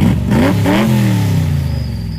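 A car engine revs as the car drives off, climbing in pitch in short surges before settling into a steady, loud, slowly falling drone.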